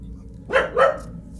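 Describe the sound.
A dog barks twice in quick succession, with two short, mid-pitched barks at moderate loudness over a low, steady background hum.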